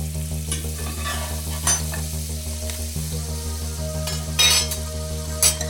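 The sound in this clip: Pancakes with chocolate chips and rainbow sprinkles fry in a pan with a steady, continuous sizzle. A few light scrapes and clinks of a utensil break through the hiss.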